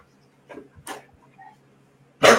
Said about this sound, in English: Man, listen to that dog. God damn. He's a little spastic.